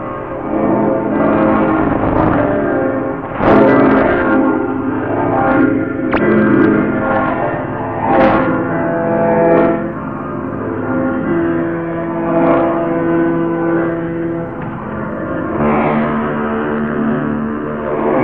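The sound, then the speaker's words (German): Large church bells of St. Michael's church in Hamburg ring on Christmas Eve, a loud, dense peal of deep overlapping tones with repeated strikes swelling over a continuous sustained hum. “Die Glocken vom Hamburger Michel und viele wissen, das ist das Zeichen.”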